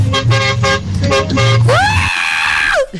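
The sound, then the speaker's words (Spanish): Big truck horn blaring: one long, loud blast that swoops up in pitch, holds steady for about a second, then drops away, following a stretch of rough, pulsing noise. “Es que la mula tiene pito grande”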